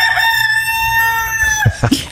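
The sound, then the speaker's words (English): A rooster crows beside a porch door in one long, loud, sustained call that drops away at the end, followed by a few short, sharp clucks. “That's a rooster. A rooster that comes up and mocks me on my porch, right by the porch.”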